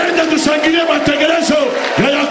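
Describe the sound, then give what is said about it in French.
A church audience loudly acclaims and cheers at the preacher's call. Many voices shout together in a dense, sustained roar that holds steady throughout. “J'aimerais qu'on acclame le programme de Jacob.”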